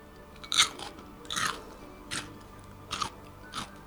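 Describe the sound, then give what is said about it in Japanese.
Crisp crunching of sweet pickles being bitten and chewed: five sharp, fairly faint crunches spaced at roughly even intervals, with no talking. “皆さん聞こえましたでしょうか？カリカリっとした、ね、音がすごくね、歯触りが良くて”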